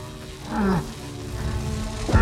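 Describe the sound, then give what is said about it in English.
A gruff creature roars in an audio drama, a rough, fairly quiet growl whose pitch drops as it ends, over a steady droning background. “Gruff roars at her as she cradles Tink in her arms.”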